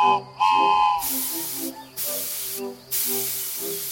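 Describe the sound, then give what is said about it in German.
A small steam locomotive hisses steam in several loud, broad bursts separated by short pauses. Low, steady tonal sounds run beneath the hisses. “Klein, aber fein, unsere Dampflok. Sie kann auch fahren.”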